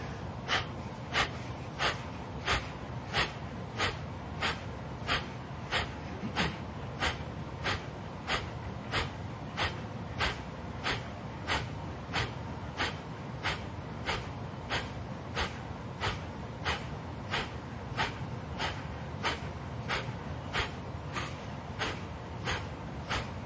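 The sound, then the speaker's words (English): Sharp, rapid exhales from a breathing exercise repeat in a steady, even rhythm: many quick, breathy puffs, each short and forceful, with no talking between them. “You're going to be doing sharp exhales.”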